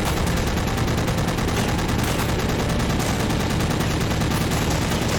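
Machine gun fire from US forces in the video game Battlestations: Midway, aimed at landing craft approaching a beach while defending Tulagi Island. A loud, dense, unbroken rattle of rapid gunfire runs throughout, with no pauses and no voices.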